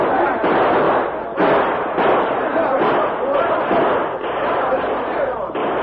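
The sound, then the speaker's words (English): Gunfire rings out in a western shootout, with dense, loud cracks and thuds fired fast and close together, mixed with voices throughout. “The outlaws tried to fight their way out of the trap, but they became panic-stricken as the bullets flew thick and fast.”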